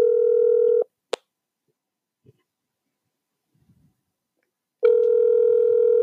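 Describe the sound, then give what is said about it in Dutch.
A steady telephone dial tone sounds, cuts off with a sharp click and a few faint taps in near silence, then the same continuous tone comes back. “We gaan even met iemand bellen.”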